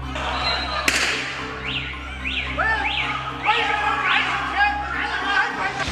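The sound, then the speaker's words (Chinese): A drug dealer holding a hostage fires a gun outside a residential compound gate, one brief sharp crack early on, after which other softer sounds carry on. “持枪毒贩推搡着人质缓慢前行，刚一走出小区大门，嫌疑人再一次开枪。”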